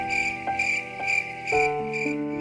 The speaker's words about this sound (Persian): جیرجیرک که از کنار پنجره کلاس حواسش به همه چیز هست میگه